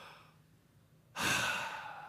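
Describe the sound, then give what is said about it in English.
An audience taking a big, deep breath in together: after a quiet moment, a sudden loud rush of airy breathing swells up and holds steady to the end. “Just take a big, deep breath in.”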